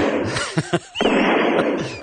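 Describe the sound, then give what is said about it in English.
Gunshots: a few sharp, loud bangs burst out in quick succession, separated by short gaps and a longer stretch of dense noise. “Hold on. Got to reload. Who are you shooting? What? Who are you shooting?”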